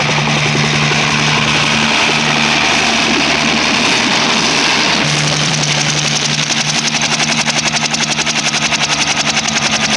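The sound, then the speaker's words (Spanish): A propeller aircraft engine droning loudly and steadily as the plane descends to land, the sound shifting midway into a faster, rhythmic throbbing. “El aparato desciende más y al fin toca tierra.”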